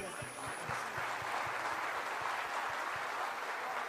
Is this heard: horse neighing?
no